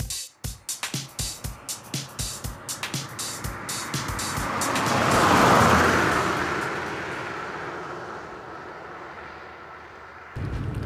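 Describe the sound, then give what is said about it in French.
A BMW car driving at high speed: a broad engine and road roar that swells steadily to a loud peak midway, then slowly fades away, with no voices. “La BMW roulait à vive allure.”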